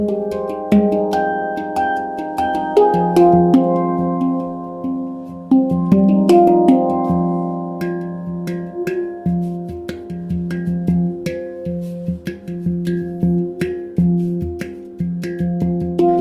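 A chord rings from a percussion instrument with an oval, elliptical striking face. It is struck many times, and loud, sustained, overlapping tones shimmer and decay between the strikes.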